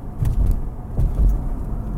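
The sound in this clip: Car driving: a low, throaty road rumble with a few soft swells and bumps in level, steady underneath and free of speech.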